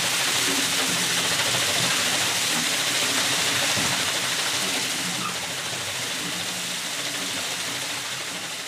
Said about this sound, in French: Donc là, nous sommes devant la façade avec la roue à eau qui entraîne le moulin toujours l'hiver pour l'huile. Pour entraîner la roue, l'eau est déviée